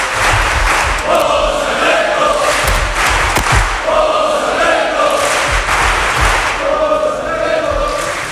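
A crowd of football fans chants in unison at a match: a loud, steady sung phrase repeated over and over, with scattered thumps and shouts mixed into the roar.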